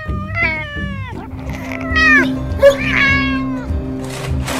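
A cat meows alongside a dog in a jungle setting, with several drawn-out, tonal meows that slide downward in pitch over a low, steady background hum.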